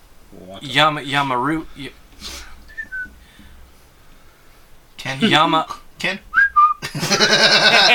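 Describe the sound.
Two short, high whistles from a person, each dipping in pitch, cut through lively talk among several voices.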